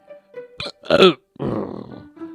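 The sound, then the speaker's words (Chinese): A long, low belch from a creature with a full stomach after digesting a lizard, following a few shorter throaty grunts and fading into a brief vocal tail, with no other sound around it. “红伯打了一个饱嗝”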